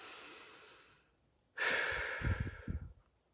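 Deep breathing: a soft, drawn-out breath fades away, then after a short pause a much louder, rushing breath follows and ends in a few rough, huffing pulses.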